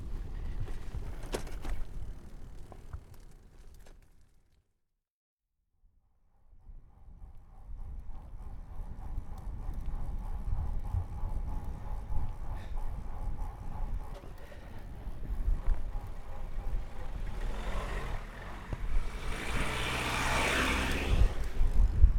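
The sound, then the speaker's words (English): Low, steady engine rumble from the cars of a couple of motorists waiting on a single-track road. A brief near-silent gap comes early on, then the droning resumes and swells louder toward the end. “That was the sound of a couple of motorists just waiting patiently.”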